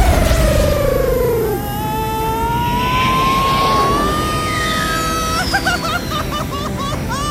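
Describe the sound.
An airplane taking off makes a loud engine roar with a whine that climbs in pitch, and a voice is heard toward the end.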